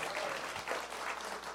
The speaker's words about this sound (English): Yeah, yeah, we can clap for that.